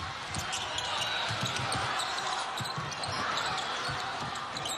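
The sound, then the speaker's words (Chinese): A basketball dribbled up the court by the Czech team during overtime of a China versus Czech Republic game: many quick, dull thumps in a steady rhythm under a constant roar of the arena crowd. “捷克队运球到前场”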